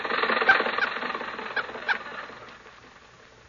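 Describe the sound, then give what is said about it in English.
A car engine runs while driving, giving a rattling, sputtering mechanical chatter that is loud at first and then fades steadily away toward the end, with no voices. “Jack and Mary are on their way to the studio, and Rochester is driving.”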